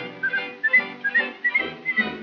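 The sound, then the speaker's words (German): A whistled melody in a cheerful song, bright and clear in short repeated phrases with a steady rhythm over a fuller musical accompaniment. “Kannst du pfeifen, Johanna? Das kann ich das.”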